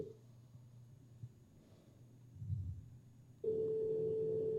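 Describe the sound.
After the call is hung up, a telephone line gives a steady busy-type tone that starts abruptly partway through and holds to the end, following a quiet low hum.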